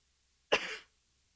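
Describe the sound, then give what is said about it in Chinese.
A single short cough from a person with lingering cold symptoms: one abrupt, rasping burst that dies away within a fraction of a second, alone in quiet. “对不起若有咳嗽请大家包涵”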